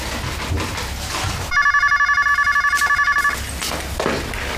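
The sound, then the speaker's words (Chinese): A telephone rings at home with a rapid electronic trill lasting about two seconds, a bright, steady pulsing tone set between faint voices and background noise. “姐，电话。”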